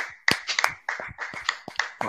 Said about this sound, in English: I think we need to give this guy a round of applause, guys, for what he did with Burnley.